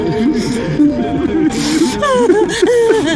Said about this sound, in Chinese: 大哥，你都不让小青哭，怎么这会儿你也哭起来了？